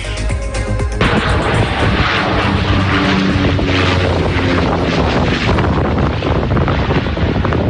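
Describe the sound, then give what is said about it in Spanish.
Firefighting seaplanes roar as they drop water on a wildfire in northern Cáceres, Spain. A loud, dense, continuous engine rush with wind buffeting the microphone fills the whole clip. “Es el sonido que han vivido durante todo el fin de semana los vecinos del norte de Cáceres, los hidroaviones descargando”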